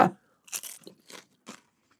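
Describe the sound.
Crisp crunch of a poppadom dipped in camembert being bitten, a sharp opening crack followed by a few fainter, spaced crunches of chewing in otherwise quiet surroundings.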